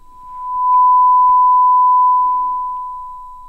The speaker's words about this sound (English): Hearing ringing in your ears could be a sign of hearing damage and can be the result of being exposed to loud and continuous noises.